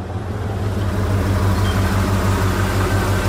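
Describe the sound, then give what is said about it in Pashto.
Deep, droning engine rumble of a lorry approaching on a cold, windy desert road. The low, steady hum builds slightly in loudness before holding even, and no voices are heard. “یوه لارۍ خو راغله همدا لارۍ ته به لاس ورکم.”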